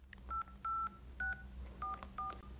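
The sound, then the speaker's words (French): Telephone keypad tones sound as a contact is dialed: about six short, pure beeps at irregular intervals, fairly faint over a steady low hum. “Donc là, maintenant, je tape Marguerite et son nom de famille, c'est ça?”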